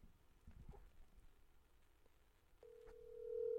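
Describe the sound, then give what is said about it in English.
A telephone dials out to place a call: faint scattered clicks and handling noise, then a steady electronic tone begins partway through and holds to the end, growing slightly louder. “Dialing.”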